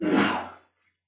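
A single sneeze bursts out loud and breathy, then fades to silence within well under a second.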